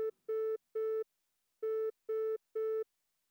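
Telephone busy tone after a call is cut off: a string of short, identical beeps at one steady low pitch, with a longer pause midway through the sequence.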